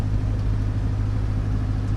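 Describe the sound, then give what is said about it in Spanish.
A propeller aircraft's engines run with a steady low drone. The rumbling hum carries even harmonic tones and stays loud and constant throughout, with no talk. “¡Ahí va la hélice! ¡Arrancando motores, queridos amigos! ¡Allá vamos!”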